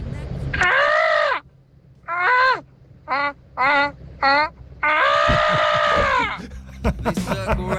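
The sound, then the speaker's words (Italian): A kookaburra, the Australian bird, gives loud, harsh cackling calls: a long burst, then a few short choppy ones, then another long rolling stretch that trails into scattered fainter notes. “il cuccabarra, che è un uccello australiano, che è uno dei simboli dell'Australia, sì. Fa così.”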